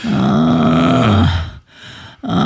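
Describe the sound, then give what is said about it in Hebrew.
A person lying in bed with a fever and aching body groans while stretching: a long, loud, low groan that slides down in pitch and fades, a short quiet pause, then another groan starts. “זה כמו סרט פורנו פולני, ככה נשמעת. לא, זה לא גניחות של הנאה. זה ברור שזה סבל. לא, זה הנאה של פולניה.”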